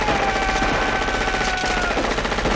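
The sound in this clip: Automatic gunfire sprays in a video game, a loud, sustained rapid burst of shots that runs without pause through the whole stretch.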